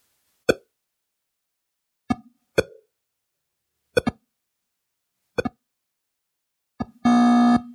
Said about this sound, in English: there is a certain musicality to these weird, harsh electronic beeps